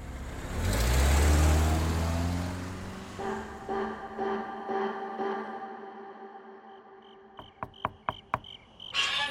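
A car accelerates away, its loud engine roar peaking early and then fading over a few seconds, followed by steady faint chirping insects and a few sharp clicks near the end.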